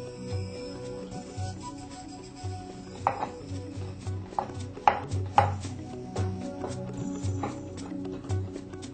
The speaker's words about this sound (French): Maintenant, il faut le découper en petits morceaux également, comme les autres.